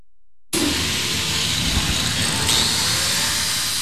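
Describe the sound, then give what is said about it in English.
A grinder smooths the edges of a fresh weld at a welding summer camp, a harsh, loud, steady roar that starts abruptly and continues unbroken to the end. “as he's using a grinder to smooth out the edges of a weld that he's just performed. There are sparks flying everywhere.”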